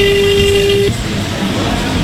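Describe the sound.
A single steady telephone tone sounds as a number is dialed, one clear electronic note held for just under a second before stopping, over a constant background hiss.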